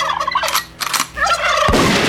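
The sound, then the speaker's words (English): A wild turkey gobbles during spring turkey season in West Virginia, a loud, rapid, rattling call heard on its own with no talk. “Well, spring turkey season in West by God, Virginia continues. There's one!”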